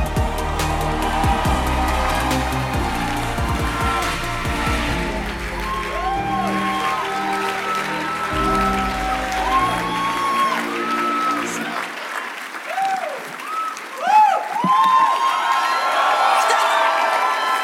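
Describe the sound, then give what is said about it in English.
An audience gives a rousing ovation to welcome a speaker. Loud, sustained applause carries on throughout, mixed with cheering, whoops and excited shouting voices. “Ladies and gentlemen, with a rousing ovation, please make welcome Dr. Helen Paul.”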